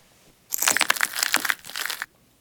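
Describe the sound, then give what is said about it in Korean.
Broken light bulb glass crunching underfoot, a quick cluster of sharp crackling crunches lasting about a second and a half, alone without voices. “연유의 뒤를 따라온 유라와 현우가 깨진 전구를 밟으며 낸 소리에”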